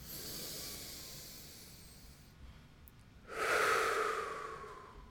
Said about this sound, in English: Let's take a deep breath.